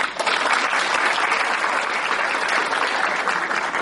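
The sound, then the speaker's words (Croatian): Dense, loud audience applause at a cultural event, a continuous even wash of many hands clapping that holds steady throughout, with no talk. “Jedan aplauz.”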